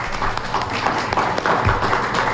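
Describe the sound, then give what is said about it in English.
Audience applause in a room at a live talk event held at a council on aging, with dense, steady clapping from many hands that continues without a break for the whole stretch. “Give yourselves a round of applause for being here.”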